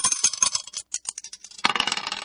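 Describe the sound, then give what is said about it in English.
Dice tumble and rattle after a toss: a run of light, sharp clicks, then a denser burst of clattering near the end. “Let's toss the dice and see what we get.”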